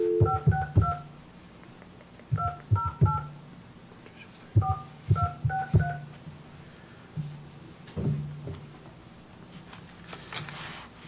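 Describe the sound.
Telephone touch-tone dialing, with clusters of short, bright keypad beeps arriving in quick bursts, each beep marked by a soft knock from the button press, separated by brief gaps of quiet hiss.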